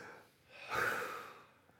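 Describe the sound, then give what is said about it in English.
A deep breath drawn in: one long, soft, airy inhale that swells and fades over about a second, quiet and alone with no talk. “come on, take a fresh breath. Just take a fresh breath. Everybody, come on.”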